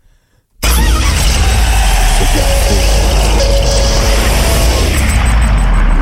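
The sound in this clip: A car engine is started with a key. After a brief near-silence it bursts into a loud, steady running rumble with a deep low drone that holds for several seconds.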